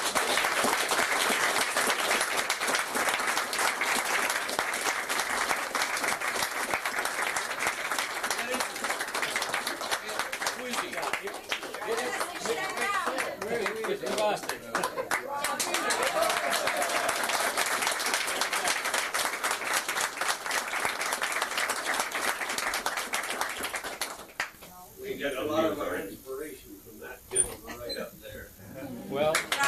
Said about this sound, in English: I think we ought to give him a really good hand today.